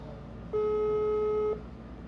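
Telephone ringback tone as a call is placed late at night: a single steady mid-pitched tone of about one second, rising clearly above a constant low background noise and cutting off cleanly.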